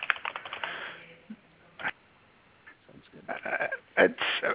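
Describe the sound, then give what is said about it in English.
Typing a URL on a computer keyboard: quick clusters of clicking keystrokes, a burst at the start, a brief pause, then more rapid runs of keys near the end. “I'll type the URL in case anyone wants to have it.”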